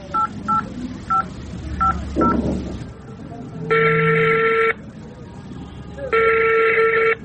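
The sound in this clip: Telephone call being placed: five quick keypad dialing tones, then two long steady ringback tones with a pause between them, all fairly loud and clear.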